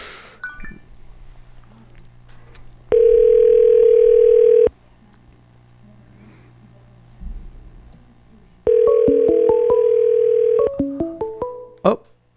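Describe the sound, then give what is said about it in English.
Telephone tones as a call is placed: two long, steady mid-pitched tones of about two seconds each, separated by a pause, followed by a few short beeps of varying pitch and clicks. “We're going to call Jack and see what's up with him.”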